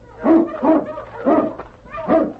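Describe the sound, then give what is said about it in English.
A sled dog in the snowy Yukon gives four short whimpering barks in an even rhythm, each a mid-pitched, moderately loud whining yelp. “But as they neared the rocks, the great dog King sensed death in the air. What is it, King, huh?”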